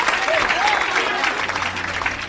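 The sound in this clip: Audience applause, a dense, steady wash of many hands clapping that holds at an even, fairly loud level for just over two seconds, with no break or fade.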